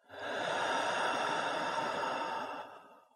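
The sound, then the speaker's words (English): A slow, deep breath drawn in through the nose and let out through the mouth makes one long, soft, airy rush of air that swells quickly, holds steady for about two seconds, then fades, quiet and alone. “Take a slow, deep breath in through the nose and out through the mouth.”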